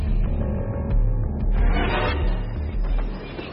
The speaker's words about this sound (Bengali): ট্রেনটা এসে থামল ক্যানিং স্টেশনে।